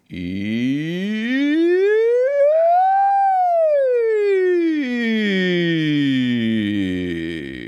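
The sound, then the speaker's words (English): A person's voice imitating a siren, sung loudly and steadily in one long continuous wail that climbs in pitch to a peak and then slides back down. “And the third is simply a siren.”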